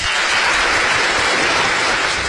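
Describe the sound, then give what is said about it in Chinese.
Warm audience applause at a Chinese stage comedy lecture show, a brief, fairly loud and continuous burst of many clapping hands. “热烈的掌声来”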